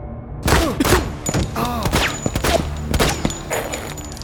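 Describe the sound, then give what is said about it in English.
Gunfire from a rifle or pistol aimed at a teammate: a rapid run of many sharp, loud cracks and thuds, spread unevenly across the few seconds. “What, so you shoot your own teammates now?”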